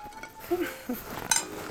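Plates and cutlery clink faintly as a meal of Wiener schnitzel with parsley potatoes is served, giving a few light, scattered chinks with no talk.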